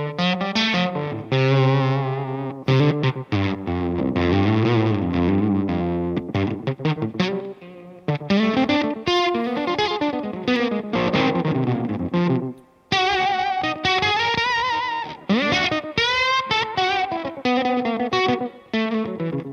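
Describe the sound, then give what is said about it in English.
Electric guitar played through an octave fuzz pedal with the boost pedal switched off, giving thick, heavily distorted sustained notes and chords. The playing is loud and continuous apart from a couple of short breaks. “Octave, here's what it sounds like without the Jan Ray.”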